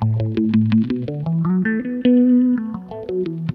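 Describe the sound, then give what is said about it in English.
An electric guitar plays a loud single-note melodic line through reverb and a delay pedal with its intensity turned up, so each note trails off into repeating echoes that overlap the next. “And then some delay. So I like to make it a little more intense. Just turn up the intensity. You hear it?”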